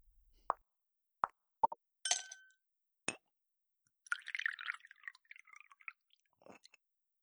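Plops, clinks and a short splashing pour as a warm, sweet non-alcoholic cocktail is mixed: several brief, separate sounds with quiet gaps between them, then a longer stretch of fizzy, liquid activity, with no talk.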